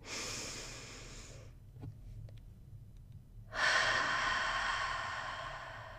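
Breathing out through an open mouth during a guided breathing exercise, pushing air out as if fogging a mirror: a long, loud, breathy rush of air after a quiet pause, with an earlier breath at the start.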